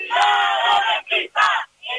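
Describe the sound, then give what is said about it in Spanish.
A protest crowd at a housing-rights march chants a slogan against landlords. Voices shout together in one long phrase, then a few shorter bursts with brief pauses between them, loud and rhythmic. “No sé si oyes esta consigna. Cuidado, rentista, estás en nuestra lista.”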